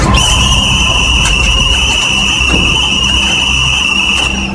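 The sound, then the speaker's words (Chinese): Shrill whistle blown hard by a squad leader in a military cadets' mess hall, a loud, sustained high tone held throughout over a noisy background. “区队长将哨子再含进嘴里，用力一吹，”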